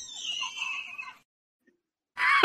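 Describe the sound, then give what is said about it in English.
A high-pitched squeal, shrill and wavering, lasting about a second. It cuts off into silence, and another loud, brief burst follows near the end. “That squeal gets me.”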